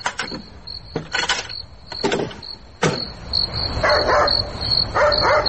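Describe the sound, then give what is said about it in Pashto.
Knocking on a wooden door comes as several sharp raps in irregular clusters, over a steady high insect-like chirp. “سشه دروازه تکیجی؟ او دروازه تکیجی.”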